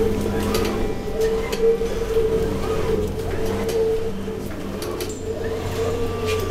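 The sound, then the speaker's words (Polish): A machine hums in a steady, loud drone with a constant low tone and a brighter whine above it, holding an even level with no clear start or stop. “Maszyna rusza.”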